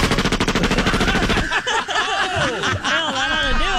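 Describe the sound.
Rapid, steady burst of Uzi submachine-gun fire in a video game, lasting about a second and a half, followed by people laughing and talking.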